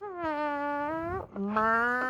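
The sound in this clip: A voice imitates a fart with two long, buzzy, droning tones. The first holds steady for over a second, and after a short break the second starts lower and grows louder.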